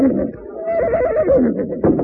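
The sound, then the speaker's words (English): A horse whinnies once in a wavering, mid-pitched call that rises and falls for under a second, surrounded by other sound. “Oh, there, horses.”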